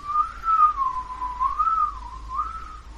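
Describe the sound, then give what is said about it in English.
A person whistles inside a cabin, a single steady tune that glides gently up and down in pitch, moderately loud and alone, with no talk. “He begins to actually whistle down here in the cabin.”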